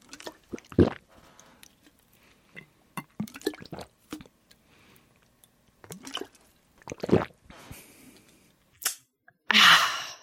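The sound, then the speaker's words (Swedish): Wet bubbling and sucking as water is drunk through a straw fitted with a flavour pod, heard as a series of short gurgling bursts of uneven length, the last one longest and loudest, with quiet gaps between them. “Och det som händer då är att det kommer börja bubbla lite när du dricker och det låter typ så här.”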